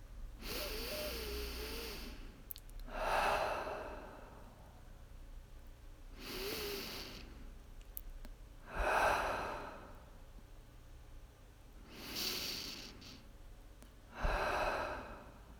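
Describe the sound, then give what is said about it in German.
Deep, slow breathing during a guided meditation: three unhurried in-and-out cycles, each breath a soft airy rush followed by a heavier sighing exhale, heard alone in quiet. “Atme wieder ein paar Mal tief ein und aus.”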